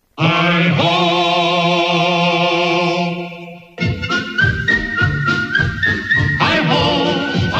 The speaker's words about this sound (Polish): I pogwizduje wesoło znów.